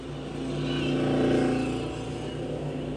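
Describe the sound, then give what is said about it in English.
A loud, tuned motorbike engine revs with a steady, deep rumbling drone that swells in the middle and then eases back. “you got a motorbike that's tuned to be as loud as that.”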